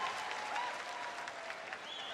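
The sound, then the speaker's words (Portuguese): Audience applause, faint but continuous, with an even, dense clapping texture and no clear breaks from start to finish. “Uma salva de palmas para ela, bem grande, ela merece.”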